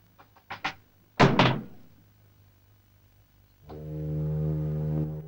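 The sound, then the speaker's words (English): A door to a pilot's room shuts with one solid thud after a few light clicks, then a steady, low droning tone sets in and holds. “the man has a quick peek before the door shuts in his face.”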